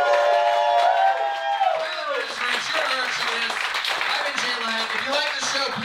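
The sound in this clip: At a live comedy game show, an audience claps and cheers for the comedians in a lively, sustained burst of applause, while a voice speaks over the crowd noise.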